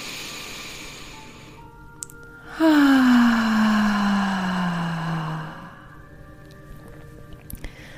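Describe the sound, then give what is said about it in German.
A deep voiced exhalation during a guided breathing relaxation exercise, a loud sighing tone that starts abruptly and slides slowly downward in pitch for about three seconds before fading, with only faint breath noise around it. “Und dann atmest du aus mit Stimme. Nochmal gerne einmal mit mir zusammen. Tief einatmen.”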